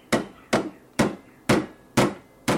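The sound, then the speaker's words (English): Hammer blows pound a hourglass-shaped piece of bent steel into a bell shape: six sharp, ringing metallic strikes at an even, steady rhythm, each decaying quickly before the next, with no voices. “He cleans an hourglass-shaped piece of steel, bends it in half, pounds it multiple times until it forms the shape of a bell,”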